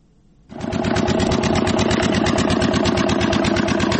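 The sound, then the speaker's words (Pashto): A diesel generator engine powers a pipe-making factory in the Kandahar industrial park. It starts after a moment of near silence, then runs loud and steady with a fast, even, rhythmic chugging. “لدی جنراتور څخه د پایپ جوړولو د یوې فابریکې لپاره برېښنا برابرېږي”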